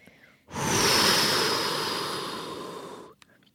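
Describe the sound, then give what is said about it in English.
One long, deep breath, a loud rush of airy breath noise that starts abruptly, holds steady, then gradually softens before stopping sharply after about two and a half seconds. “I need to take deep breaths more often. That's something I've been really, like, really enjoying just now today. That was so nice for me, taking that deep breath.”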